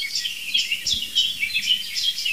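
Birdsong attributed to a blackbird and a song thrush, with bright, high chirping phrases repeating in quick succession at a steady moderate level over a quiet background, with no voices.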